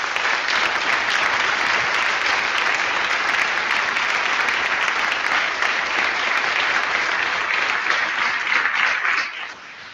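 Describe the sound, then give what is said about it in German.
Dense applause from a conference audience thanking the organising team, a steady, even roar of many hands clapping that holds for the whole stretch before dropping off at the very end. “Einen dicken Applaus.”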